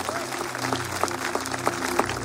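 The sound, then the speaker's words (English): Hand clapping from an audience at a religious gathering, a dense patter with a few sharper accents spaced through it, over a steady low hum that runs throughout. “Can you clap your hands to Jesus for that?”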